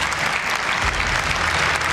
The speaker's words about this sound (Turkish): Filistinli başkan salondakiler tarafından alkışlandı.